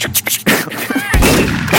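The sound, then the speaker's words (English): A gun being loaded, as a sound effect from the video game Red Dead Redemption 2: loud, sharp mechanical clacks, then a dense, noisy burst that holds steady to the end. “Do you like a sound effect kind of thing, like a? You know what? I'm gonna start doing that now. Like a gun being loaded, like.”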